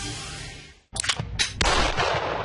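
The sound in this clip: Gunfire rings out at a shooting range: a quiet stretch gives way to a few sharp, loud reports in quick succession, followed by a sustained noisy rumble.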